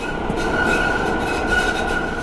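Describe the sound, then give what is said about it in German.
Steady high-pitched wheel squeal from a Cologne city tram turning into a curve, held throughout over a constant low rolling rumble. “Dann biegt die Linie 13 quietschend in eine Kurve ein.”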